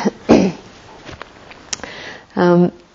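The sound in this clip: A person clears a niggly throat with a few short, rough bursts separated by quieter stretches, ending in a longer voiced rasp.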